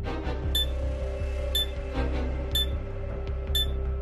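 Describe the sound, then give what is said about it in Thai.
A timer ticks during a seven-second countdown in a quiz game, giving four sharp, high ticks spaced evenly one second apart over a steady low hum. “เจ็ดวินาทีจับเวลาครับ”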